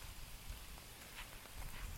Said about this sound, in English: and continues to rain, varying in intensity. I'm also walking near some trees